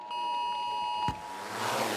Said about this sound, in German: Diesen Warnton haben Sie heute vielleicht gehört?